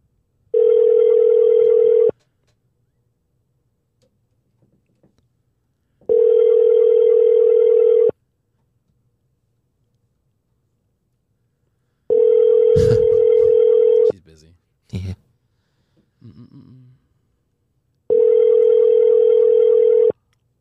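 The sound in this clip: Ringback tone of a telephone on an outgoing call: four long, steady buzzing tones, evenly spaced with quiet gaps between them, and a few brief clicks and handling noises before the last tone.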